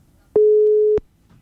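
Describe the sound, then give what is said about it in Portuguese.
On an outgoing phone call, a single steady mid-pitched ring tone sounds loudly for a little over half a second and then stops, leaving quiet background with no talk. “É o número do Joel, liga pra ele, agora. Quem ligar agora, ele vai atender.”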